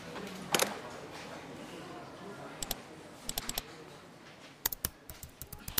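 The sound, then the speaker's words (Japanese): Fingers type an email on a computer keyboard: scattered clicks at first, then quick clusters of keystrokes that grow denser toward the end. The clicks are sharp and fairly quiet. “連絡先をコピーして、会ったこともない主催者にメールを打つ。”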